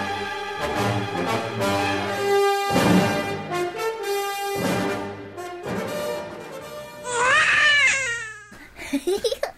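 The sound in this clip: A newborn baby cries just after birth: a loud, high wail followed by a few short, rapid sobbing bursts, coming after several seconds of other loud, strained vocal sounds.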